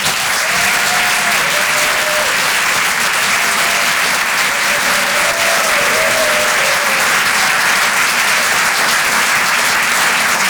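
An audience applauds and cheers as a comedy stage performer is introduced. Dense, loud clapping runs unbroken throughout, with a few whoops rising above it.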